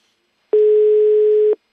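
A telephone tone while a call is being placed: one clean, continuous beep at a steady pitch lasting about a second, with silence before and after.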